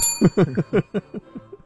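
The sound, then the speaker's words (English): A bell rings during a quiz game, its high, thin tones sustained over a quick run of rhythmic voiced bursts. “Where's our bell? Come on.”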